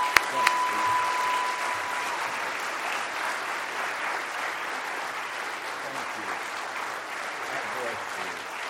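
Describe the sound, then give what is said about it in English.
A church audience gives a standing ovation as a guest speaker is welcomed to the pulpit, a dense, even roar of clapping sustained for about nine seconds without a break. “When I walk in courtrooms and legislatures, they don't applaud for me like that. They just don't.”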